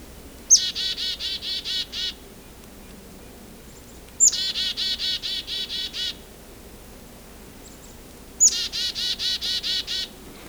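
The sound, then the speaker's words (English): A red-breasted nuthatch calls in three separate bursts. Each burst is a rapid series of repeated nasal, high-pitched notes, and each opens with a sharper note. The calls are clear and moderately loud over a quiet background, with no voices. “You can hear a second one. Oh. It's a red-breast nuthatch here, too.”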